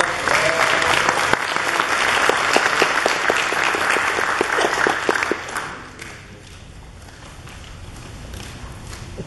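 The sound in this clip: Audience applause sounds as a dense, steady patter of many clapping hands, loud for several seconds and then thinning out and fading toward the end.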